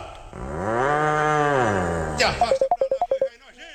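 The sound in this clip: An ox moos once, a long, loud, deep call whose tone rises and then falls over nearly two seconds. A rapid run of many short, sharp tonal pulses follows.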